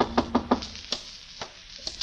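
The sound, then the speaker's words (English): Three quick, evenly spaced knocks rap on a door in a radio drama, followed by a few faint, scattered taps and soft rustling. “Well, this was my chance to collar him, only just then a knock came.”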